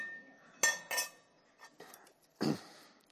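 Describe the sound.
Utensil clinks against a soup tureen while stirring, a few short bright metallic and ceramic chinks spaced irregularly, with quiet gaps between them and no voices.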